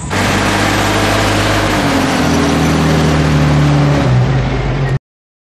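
A car engine revs loudly as the car drives off, a continuous droning roar lasting about five seconds whose note shifts slightly, then cuts off abruptly.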